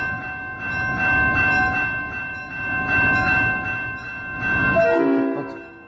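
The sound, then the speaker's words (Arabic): A train passing: heavy rumbling rolls in slow swells, overlaid by a sustained steady horn tone, with the rumble dropping away near the end. “اهو، قطر جاي ربنا يستر من حوادث القطارات وناخد بالنا قوي اهو، قطر معدي 70 ديسيبل او 70 هرتز اللي هو انت ممكن تتحمله بس هو بيزعجك شويه.”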